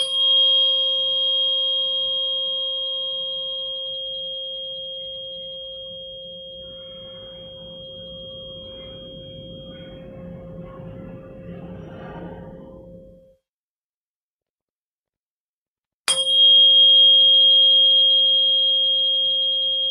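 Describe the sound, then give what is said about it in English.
A 528 hertz tuning fork rings with a pure, steady tone plus a faint high overtone, fading slowly over about thirteen seconds. After a few seconds of silence it is struck again and rings loudly. “Okay, so I got one more fork we'll use, and this is a brighter, prettier sound. This is a 528 hertz, so we'll just do a few with these, with this one, and see what we notice.”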